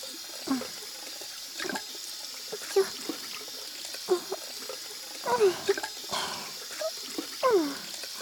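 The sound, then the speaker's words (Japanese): Water runs from a tap as soap foam is rinsed off hands, a soft, continuous trickle broken by faint irregular splashes and drips, fairly quiet throughout, with no voices. “爪の中の泡も全部しっかりきれいにするよ。”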